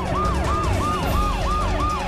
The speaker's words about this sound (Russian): Пожарные едут. И скорые.